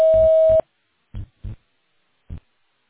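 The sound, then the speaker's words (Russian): A voicemail system gives a single steady electronic beep of about half a second before a message is recorded. Three short, low bursts follow, separated by silence. “После сигнала, пожалуйста, запишите свое сообщение. Для окончания записи нажмите любую клавишу или перестаньте говорить.”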